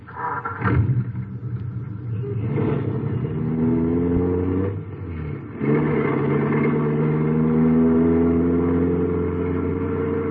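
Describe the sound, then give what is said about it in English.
An American car is driven through Chicago, its engine revving with a rumbling, mid-pitched drone that climbs in pitch several times as it accelerates, with brief dips and a light clatter between the pulls. “Well, why don't you drive? Or don't you know how to handle an American car? There is no need to be insolent. Get in. Drive.”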